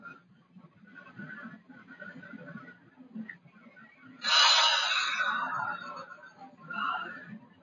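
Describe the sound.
A long, deep breath drawn in through the nose makes a rushing, airy sound that lasts over a second. A softer breath follows it, above a faint low hum.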